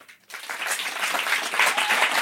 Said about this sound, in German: Wer sagt ja? Ja, einmal klatschen.